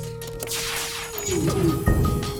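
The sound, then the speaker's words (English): Weapon shots strike enemy shield layers in a video game, giving a run of crashing, smacking impacts over a steady synthetic tone, with the loudest bursts coming late. “So this is gonna shoot one, two, three, four, five, six shots at them.”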